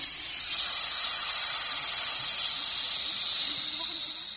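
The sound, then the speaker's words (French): A loud, steady hiss of pressure being vented from a closed device, holding an even, continuous rush for the whole clip with no voices. “ensuite, on éteint la lampe torche et il ne reste plus qu'à vider la pression. Donc, une fois que c'est bien fermé ici, donc ça peut faire du bruit.”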